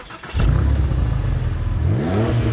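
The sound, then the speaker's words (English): A Porsche sports car engine revving: a loud, low, throaty drone kicks in abruptly, holds steady, then climbs in pitch near the end, heard alone without talk. “That sounds like a Porsche. Did I just win a souped-up Porsche?”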